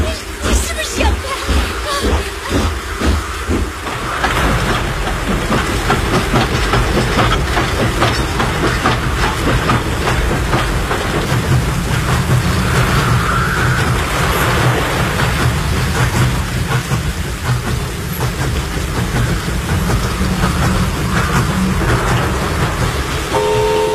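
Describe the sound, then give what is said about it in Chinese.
Train passing over rails and roadbed, a continuous loud rumble with hiss, with a rhythmic clatter near the start that settles into a steady roar. “火车终于顺利通过了，路基和铁轨都完好无损”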